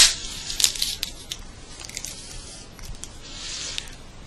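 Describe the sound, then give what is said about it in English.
Adhesive tape being torn and wrapped around a person's wrists to bind them. It sounds as faint crinkling, sticky peeling and rustling with a few sharper tearing bursts near the start and no talk. “I'm taping your wrists together so that you don't move.”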